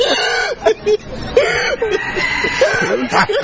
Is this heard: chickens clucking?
yes

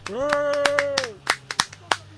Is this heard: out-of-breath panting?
no

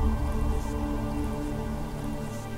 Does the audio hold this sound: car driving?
no

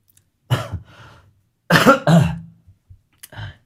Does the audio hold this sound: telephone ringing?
no

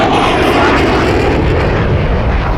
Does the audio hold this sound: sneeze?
no

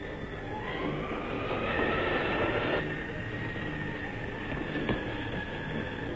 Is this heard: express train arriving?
yes

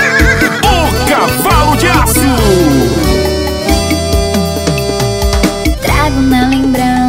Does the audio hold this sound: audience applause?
no

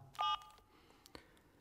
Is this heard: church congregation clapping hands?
no

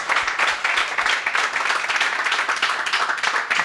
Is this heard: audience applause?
yes

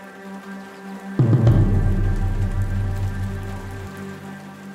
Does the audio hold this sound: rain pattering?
yes

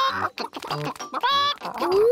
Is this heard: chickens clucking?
yes

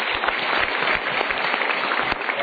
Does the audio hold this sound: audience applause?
yes

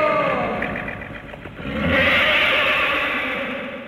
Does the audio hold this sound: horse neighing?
yes

